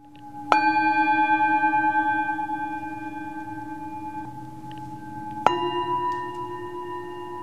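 Tibetan singing bowls at a sound bath studio in Scottsdale, struck twice several seconds apart, each strike blooming into long, bright, sustained ringing tones that slowly fade over a low steady hum, with no voices.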